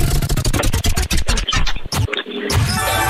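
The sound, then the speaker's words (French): A prize wheel spins in a giveaway game, its pointer clacking through a fast run of loud ticks that blur into a rattling, scraping clatter. “Allez, ça tourne pour toi la roue RVM.”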